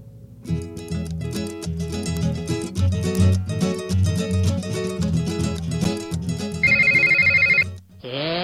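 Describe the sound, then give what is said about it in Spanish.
Telephone bell ringing as a rapid, trilling electronic burst lasting about a second, entering loudly after music; the start of a second ring follows just before the end. “Está sonando el teléfono y no te diste cuenta.”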